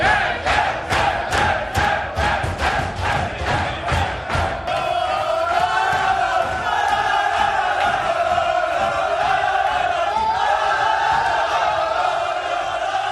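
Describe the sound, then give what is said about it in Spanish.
A football team celebrates in the locker room after a 3-0 win. Rhythmic, loud group shouts pulse in quick succession, then give way to sustained chanting and cheering from many voices. “Este es el sonido de la fiesta del Getafe en el vestuario después de haberle ganado 3-0 al Sevilla”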